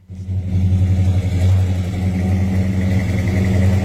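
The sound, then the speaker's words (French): A 440-cubic-inch, 375-horsepower V8 car engine revs through dual two-and-a-half-inch straight-pipe exhaust with two resonators, a deep, loud, throbbing rumble that kicks in abruptly and stays heavy with slight surges throughout. “juste pour toi, V8. 440 pouces cubes, 375 HP.”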